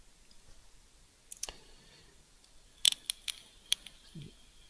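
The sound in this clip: Computer mouse clicks while a folder is opened: several sharp, quiet clicks, a pair early on, then a quicker cluster of crisp taps later, over faint background hiss.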